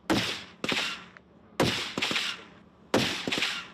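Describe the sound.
Sniper rifles fire at targets 600 to 1000 metres away during a military exercise: five sharp, loud cracks in irregular spacing, each followed by a brief decaying tail.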